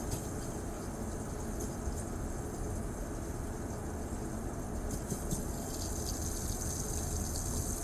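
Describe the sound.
Water runs from a push-button tap as a continuous, even, faint hiss and splash that holds steady from start to finish.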